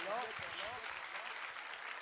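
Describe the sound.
An audience claps hands at a celebration of Hazrat Masumeh's birth anniversary at the Imam Reza shrine, a dense, steady wash of applause with voices carrying over it.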